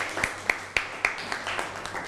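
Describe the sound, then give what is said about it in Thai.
Classroom applause for a classmate's presentation: several sharp, evenly spaced hand claps come first, followed by softer, scattered clapping as the round fades. “ปรบมือให้กับเพื่อนหน่อยครับ”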